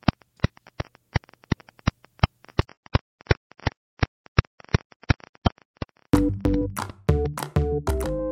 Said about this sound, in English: And the sound you're hearing is these pulses of radiation. It's what microwaves sound like.